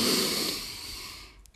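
A long, deep exhale during a guided breathing exercise, letting the lungs empty completely. It is a steady airy rush heard alone that slowly fades over about a second and a half.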